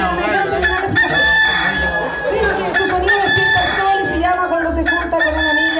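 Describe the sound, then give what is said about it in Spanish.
A rooster crows loudly and continuously throughout, its call a bright, layered harmonic cry that holds strong over a busy background. “¡La gallina! Mm. Ah, ah, pero es un gallo.”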